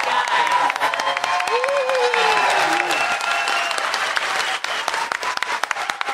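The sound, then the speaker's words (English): Audience applause at a convention panel, a dense, sustained wash of clapping mixed with crowd noise, loud and steady throughout, with a voice speaking over it partway through. “Give a big round of applause.”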